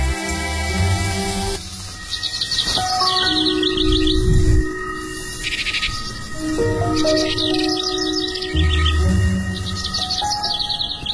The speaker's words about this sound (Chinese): 先听一会儿鸟叫怎么样？ 嗯，我觉得我们的声音没有鸟叫好听。